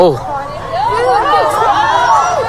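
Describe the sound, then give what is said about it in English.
Crowd at the elephant enclosure of the San Diego Zoo during an elephant charge, with many voices chattering and calling out at once in a loud, agitated babble with rising and falling exclamations. “Listen to the crowd. What's happening? An elephant actually started charging them.”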